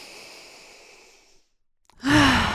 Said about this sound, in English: Let's take a deep breath.